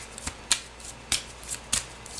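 Tarot cards being shuffled for a Gemini love reading make several short, crisp riffling bursts separated by quiet gaps, with no voices.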